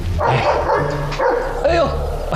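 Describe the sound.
A dog barking and yipping a few times, loud and sharp, mixed with people talking over it.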